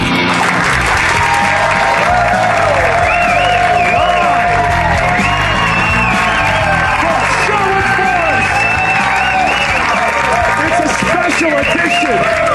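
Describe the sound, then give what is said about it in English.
A live studio audience applauds and cheers loudly and continuously, dense clapping mixed with whoops and shouted voices that carry on without a break. “This is the live studio audience.”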